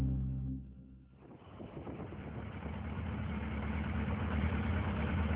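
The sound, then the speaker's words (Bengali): A motorbike engine idles after the rider pulls to a stop: a low droning hum at first, a brief dip, then a steady, rough, low rumble that builds slightly and holds to the end without talk. “কি রে দাদা, তুই bike থামালি যে।”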